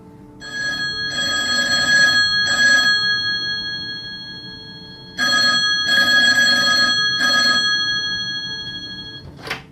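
A telephone rings in two groups of short, steady, bell-like bursts separated by a pause, loud and evenly pitched, with no voices.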